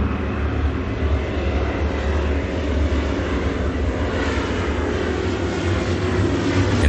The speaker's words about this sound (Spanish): Cierran la puerta del avión. El avión despega.